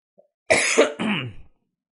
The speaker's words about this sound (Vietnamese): Nên khá là uể oải trong người mà ho nữa chứ.